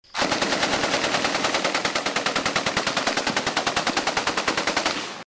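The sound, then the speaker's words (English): An M240 belt-fed machine gun fires one sustained automatic burst of about five seconds, a loud stream of rapid, evenly spaced reports that holds a steady rhythm from start to finish. “Now you're going to hear an M240 belt-fed machine gun.”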